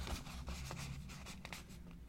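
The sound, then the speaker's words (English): Pen or pencil writing on paper during a number-guessing game: a steady run of soft, scratchy strokes that lasts about two seconds, fairly faint and without talk. “That's a lot of writing you got there.”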